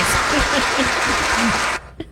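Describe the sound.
A studio production crew applauds in a steady, dense wash of clapping that lasts under two seconds and then stops abruptly.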